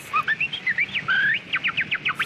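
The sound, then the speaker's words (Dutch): A human voice imitates a finch with many quick, high chirping notes and one longer whistled note near the middle, then ends in a fast run of short, sharp chirps. “Imitatie van dieren. Een vinkje. Hier wordt een vinkje nagedaan.”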